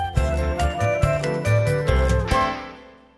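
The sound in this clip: A bright, jingling chime from a children's picture storybook signals a page turn. Tinkling bell notes sit over low sustained tones, and a final accent fades out into a ringing decay.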